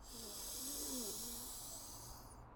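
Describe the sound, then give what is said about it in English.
Deep inhale through both nostrils during an alternate nostril breathing practice, heard as a soft, steady airy hiss that lasts about two and a half seconds and fades slightly at the end. “Take a nice deep inhale in through both nostrils.”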